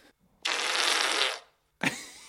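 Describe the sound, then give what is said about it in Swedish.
A fart sound, likened to bare buttocks on a glass table: one long, loud rasping blast lasting about a second, then a short silence and a second sharp burst starting right at the end. “Men det lät som att man fes naken med skinkorna på ett glasbord.”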